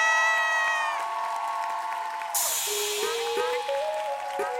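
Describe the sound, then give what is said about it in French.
An audience gives an ovation, with sustained vocal tones giving way partway through to a sudden burst of cheering and applause that carries on to the end. “Merci d'ovationner.”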